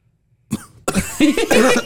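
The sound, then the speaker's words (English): Coughing from a person right after a hard hit of smoke: a short harsh burst, a brief pause, then a longer run of loud, rough, strained coughs that last to the end. “Let me see if I can do it without coughing. Oh, he's going to cough.”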